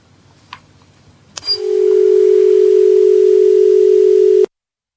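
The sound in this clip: Telephone dial tone after a call-in phone call drops: a sharp click, then one loud, steady tone held for about three seconds before it cuts off abruptly into silence.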